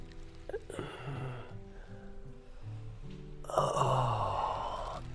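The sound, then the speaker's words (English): A deep breath is drawn in during a guided stretching and breathing exercise: a soft airy rush early on, then a longer, louder inhalation filling the second half. “Take a deep, deep breath.”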